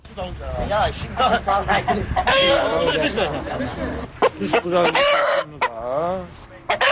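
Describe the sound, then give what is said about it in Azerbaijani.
Roosters crow and cluck at a rooster fight held on a Novruz holiday evening in Maştağı, a village near Baku. Loud, repeated calls mix with the chatter of people talking throughout. “Martın 20-sində bayram axşamı Maştağı qəsəbəsində də xoruz döyüşdürülməsi səhnəsi qurulmuşdu.”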